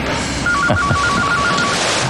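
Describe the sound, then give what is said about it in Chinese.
A telephone rings with an incoming call, a rapid train of short electronic beeps on one steady tone lasting just over a second, set against a continuous low background noise. “我接个电话。”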